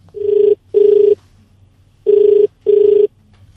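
Telephone ringing for a radio phone-in call: four loud, steady ring bursts in two pairs, separated by a short pause, with no talk over them.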